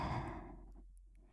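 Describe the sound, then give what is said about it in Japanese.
One deep exhaled breath during a guided breathing exercise: a soft, sighing rush of air that starts at full strength and tapers away over about a second, faint and alone. “はい、吸って、吐いて、”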